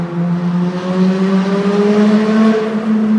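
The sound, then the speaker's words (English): A car engine revs hard, giving a loud, sustained, droning tone that climbs slowly in pitch across the whole stretch. “He'll throw another. He's got another rev to throw.”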